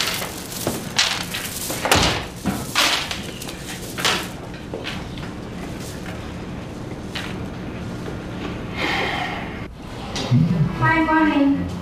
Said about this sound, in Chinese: 阿姨帮我把门关上。